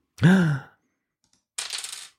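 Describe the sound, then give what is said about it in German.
A four-sided die rolled in a game, giving a short, bright rattling clatter near the end that follows a brief voiced sound and a moment of silence. “Die Würfel bitte. Jetzt geht's an den Endspurt. Genau. Ich habe hier einen vierseitigen Würfel.”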